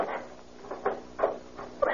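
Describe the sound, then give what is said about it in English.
Soft knocks and clunks as a light aircraft's cabin door is shut and locked on a beach, a few faint, dull bumps spread across the moment, the last slightly louder. “first climb up and close the cabin door and lock it.”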